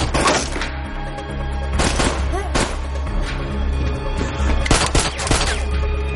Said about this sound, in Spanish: Cruza el umbral de la puerta disparando y acaba con uno de los atacantes.